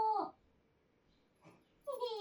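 A dog whimpers in two high, tonal whines, a short one at the start and another at the end, with a soft faint sound between them and near quiet otherwise.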